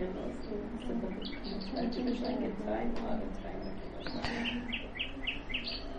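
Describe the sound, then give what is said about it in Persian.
A nightingale sings in faint, quick chirps and trills over a low, steady background hum. “یکمی بخونه برامون این بلبل، چون برای اهل دل داره میخونه، با دل میخونه.”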